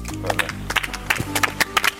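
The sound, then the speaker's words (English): Weak, sparse applause from an audience: a few scattered, uneven handclaps that never build into sustained clapping and stay thin and short. “It was the most pathetic clap I've ever heard.”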